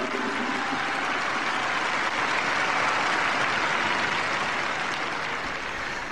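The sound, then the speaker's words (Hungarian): Thunderous applause from a large crowd at a papal general audience, a dense, continuous roar of clapping that stays loud and even throughout. “A taps vihart hallva elképzelhetik a kedves hallgatók, hogy a mai napon is elég sokan vettek részt a Szent Atya kihallgatásán”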